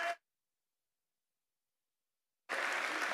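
Applause welcomes a guest pastor at Pacific Baptist Church. A brief burst cuts off into silence, then a steady, dense patter of clapping begins and continues to the end.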